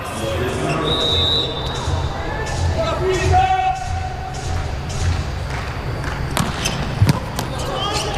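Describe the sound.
A volleyball bounces a few times on the court before a serve during a Brazil versus France match, sharp thuds over steady crowd hubbub with voices talking.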